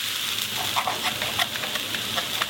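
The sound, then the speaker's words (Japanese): Steak sizzling on a grill: a loud, steady frying hiss dotted throughout with sharp little crackles and pops, with no voices. “後ろで暖炉の音もちょっとミックされてる感じがいいよね”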